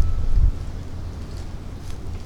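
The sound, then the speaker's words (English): Wind blows across the microphone as a low, rumbling rush, with a stronger gust at the start settling into a steady, softer roar. “Wow, the wind is really blowing.”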